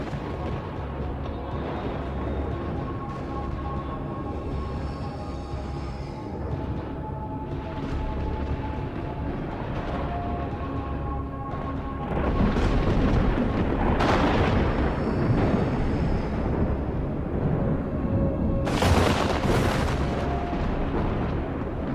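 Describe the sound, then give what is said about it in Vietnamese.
Thunder and crackling lightning in a stormy sky build into a dense, continuous rumble. The rumble steps up in loudness partway through, with sharper cracking bursts breaking out near the end. “Tiếng lôi điện lẹt đẹt, to dần trên không trung. Những trụ thần lôi như là cột đình ầm ầm bổ xuống một cách đáng sợ.”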